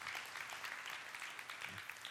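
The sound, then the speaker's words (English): A church audience applauds the worship team with faint, steady, soft clapping that continues evenly for about two seconds. “Let's give the worship team another round of applause.”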